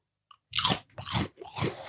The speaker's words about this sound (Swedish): vi har köpt lite munchies här. Så det blir nog ett och annat knaprande i mickarna